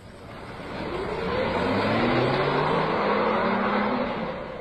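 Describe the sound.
A car is driven along, its engine giving a moderate hum that swells and rises in pitch, holds steady, then eases slightly near the end, with no talking over it.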